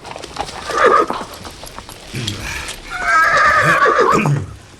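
Ridden horses whinny loudly in two long, shaky neighs while hooves clip-clop underneath, with no talking.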